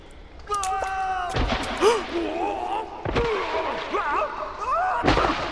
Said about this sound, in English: That was Jerry and the thieves. They must have fallen into another shaft.